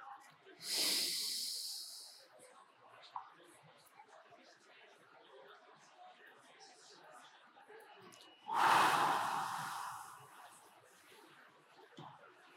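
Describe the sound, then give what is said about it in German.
A guided breathing exercise: a hissing nasal inhale, a long quiet stretch while the breath is held, then a loud, airy exhale through the mouth. “Rein durch die Nase, raus durch den Mund. Wenn ich das mal vormachen darf, könnt ihr es gerne mitprobieren. 4 durch die Nase ein, ich zähle mit, 6 Sekunden Atem anhalten, 8 Sekunden durch den Mund ausatmen.”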